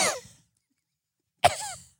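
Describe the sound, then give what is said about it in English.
Two short, small coughs separated by a brief silence, each a sharp burst that fades quickly. “Did you like his little cough?”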